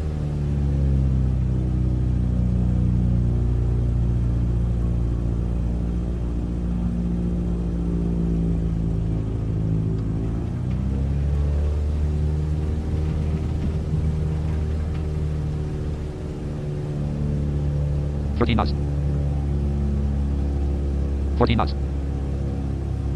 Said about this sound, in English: Cub Crafters Alpha Sierra X-ray Golf Sierra taking off runway 1 west departure. Parking brake off.